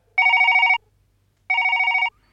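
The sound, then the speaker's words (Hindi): A telephone rings as a call is placed, giving two steady electronic ring bursts of even pitch, each just over half a second long, with a short silent gap between them and no voices. “Computer ji, Kaliya cordless अपने पिताजी से phone पर बात करना चाहते हैं, तो कृपया कालिया कॉर्डलेस के पिताजी को फोन लगाया जाए।”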